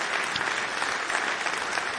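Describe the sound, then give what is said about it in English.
Audience applause for a live music performer: many hands clapping in a dense, even rush at a moderate level, sustained for the whole stretch without a break. “One more big round of applause for Peter Case.”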